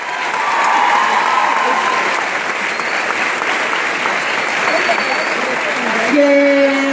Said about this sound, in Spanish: pedirles a ustedes un aplauso para la diputada Lucila del Ponte